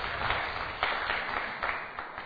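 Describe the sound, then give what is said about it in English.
An audience at a church gathering applauds the worship leader, a dense, somewhat muffled patter of many hands that swells in a few slight surges and stays fairly even. “If we'd all just give him a big round of applause, everybody.”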